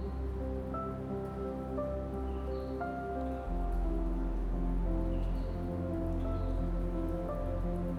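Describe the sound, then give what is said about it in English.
Steady falling rain, a continuous loud hiss of drops that grows slightly heavier partway through, with soft sustained tones running beneath it. “with the falling rain. And let it drown out your thoughts.”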